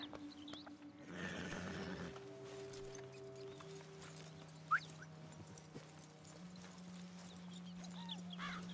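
A horse in the video game Red Dead Redemption 2 makes faint hoof clip-clops and snorting sounds over sustained, steady musical tones, with one brief sharp sound near the middle.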